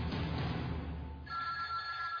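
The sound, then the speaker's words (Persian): A telephone rings in an office. A steady tonal ring comes in partway through, over a constant low background rumble. “تلفن زنگ زد”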